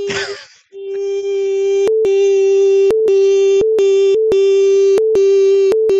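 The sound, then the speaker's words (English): Censor beep laid over a recorded conversation: a brief burst of voice gives way to one long, steady, mid-pitched tone lasting several seconds, broken by sharp regularly spaced clicks. “I'll beep your entire track out, so all you hear is”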